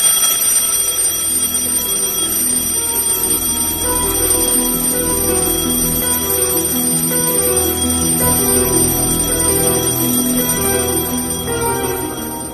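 An alarm clock rings steadily and loudly for the whole clip, a dense, unbroken metallic ringing that holds the same level throughout and tapers slightly at the very end, with no voices.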